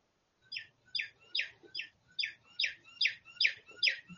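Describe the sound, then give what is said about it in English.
A cuckoo call used as a pause cue repeats nine times in an even rhythm. Each call is a bright, high two-part chirp, and it sounds alone with no talk. “pause for the cuckoo,”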